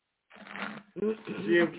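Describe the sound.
Cards are shuffled and flipped out for a card reading, giving brief brushing, riffling bursts under a voice that talks through them.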